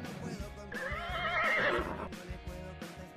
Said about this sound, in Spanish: ¡El caballito!